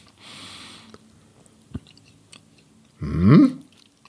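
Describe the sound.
Someone chews bread topped with egg and caviar: a few moist, crunchy mouth sounds with quiet gaps between, a short sharp click in the middle and the loudest squishy bite near the end.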